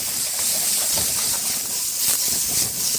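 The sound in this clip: Onions and bacon hit a pan of browned, crisp frying potatoes with a loud, steady sizzling hiss that stays intense and even, with faint crackles underneath.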